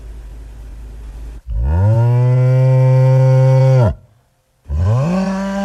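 A bull bellows in two long, loud, deep moos with rich harmonics; the first call is sustained, and after a short pause a second one begins and runs to the end.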